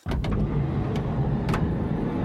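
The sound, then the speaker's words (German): Car driving, heard from inside the vehicle: a steady low road and engine rumble that starts abruptly and holds at an even level, with no talk. “Der Morgen beginnt für Lokaljournalist Heiko Hesse im Auto.”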